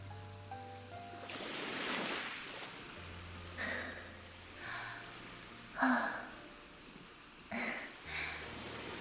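Ocean waves on the sea, a broad hissing wash swelling early, then a few shorter splashes, all faint over soft sustained musical tones.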